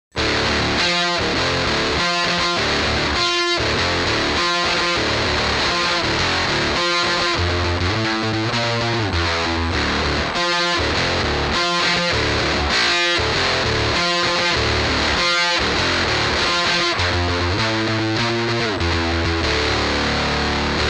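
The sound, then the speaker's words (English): Electric guitar through a Foxy Tone Box octave fuzz pedal plays a loud, heavily distorted, rhythmic riff with sharp, repeated note attacks and a buzzy, saturated tone that runs steadily throughout, with no voices. “Here's the Foxy Tone Box for reference, an actual octave fuzz.”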